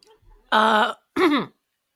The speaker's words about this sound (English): Choked on your cheeseburger.